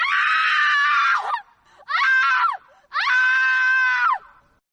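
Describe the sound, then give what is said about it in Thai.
A human screams three times, loud and shrill, with rapidly changing pitch. Each scream is strained and harsh, and the last two slide downward at the end, with short silent gaps between them. “ยิ่งเสียงหวีดร้องนี้ถูกปรับเปลี่ยนระดับไปเร็วเท่าใดเสียงดังกล่าวก็จะส่งพลังและเรียกร้องความสนใจได้มากเท่านั้นครับ”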